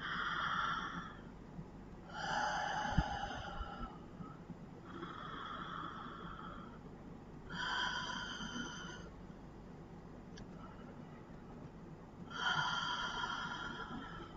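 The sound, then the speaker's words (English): A person takes slow, deep breaths at the close of a prayer. A few soft, airy rushes of air come in and out, separated by quiet pauses, all faint. “So we'll just take 3 deep breaths again.”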